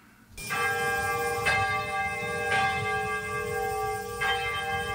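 A church bell, a replacement for one destroyed by the atomic bomb, rings out for the first time after its installation ceremony: four loud strikes, each leaving a long, shimmering, overlapping hum that sustains between blows, with no voices.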